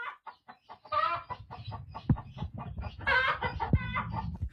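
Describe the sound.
A chicken clucks in a rapid run of short, clipped calls, with a few louder, longer squawking bursts mixed in; the calls are fairly faint and there is no talk.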